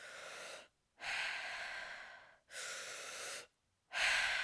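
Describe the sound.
Deep, slow breaths during a breathwork exercise: four long, airy breaths, each a broad rush of breath noise separated by brief silences. The breaths are fairly faint, with no speech.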